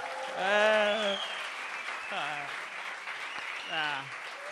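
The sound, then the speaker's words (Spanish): An audience applauds with a soft, steady patter of clapping while several voices call out over it in rising and falling whoops. “Qué bueno, hacía tiempo que no me aplaudieron así. La última vez que me aplaudieron así fue en el INEM.”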